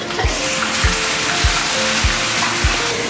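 Steady, dense sizzle of food dry-frying in a pot over a wood-fired stove, broken by five evenly spaced low knocks that fall in a regular stirring rhythm.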